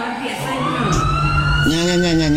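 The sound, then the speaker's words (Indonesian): An ambulance siren wails loudly and continuously, its tone sliding upward and then jumping higher near the end, with a low rumble underneath. “Nya. Embulan datai.”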